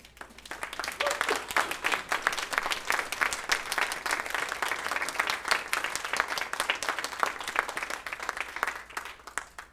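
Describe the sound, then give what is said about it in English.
A church audience on its feet gives a hand clap of praise: many hands clap in dense, sustained, even applause that carries on steadily for nearly ten seconds. “So church, if you'll just stand up all around the church for me, give the Lord a hand clap of praise for”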